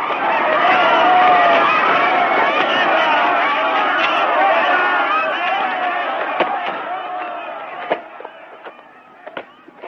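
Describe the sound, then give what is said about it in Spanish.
A crowd in a Mexican town square scatters to hide after gunshots in a 1954 western, with loud panicked chatter that gradually thins out and a few sharp cracks near the end. “Mata a Charlie y al que le secundó. La gente de la plaza corre a esconderse.”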